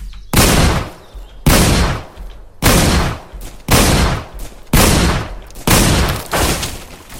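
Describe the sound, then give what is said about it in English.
A Winchester shotgun fires six loud booming blasts in a video game, evenly spaced about a second apart, each with a sharp attack and a rumbling decaying tail. “Weapon shotguns. Winchester M. Let's load my shotgun here.”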